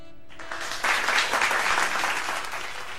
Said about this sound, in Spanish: Ahí van esos aplausos